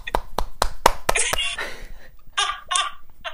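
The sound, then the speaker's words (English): Palm clapping: a quick run of about six sharp, hollow claps, followed by bursts of laughter. “I can palm clap.”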